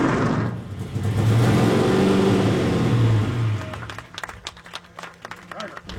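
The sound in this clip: A race car accelerates away with a loud, rising engine roar that holds for a few seconds, then drops off and fades, leaving quieter scattered clicks and noise behind.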